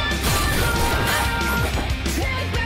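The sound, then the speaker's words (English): Robots with blade arms slice other robots apart in a Matrix-style fight scene. The clashing and crashing hits are dense and continuous, loud throughout, layered over pop music. “Oh, and now the robots have thrown aside their minigun arms for blade arms just to make things interesting, I suppose.”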